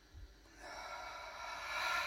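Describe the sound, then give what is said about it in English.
One long, quiet human breath: a soft, airy rush of air that swells gradually and then holds steady, heard alone with no talking. “Feel the sounds of your breath. Inhale. Exhale. Inhale.”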